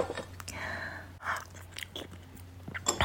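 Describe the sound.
Chewing at a birthday meal: soft, irregular mouth and bite sounds over a low steady hum.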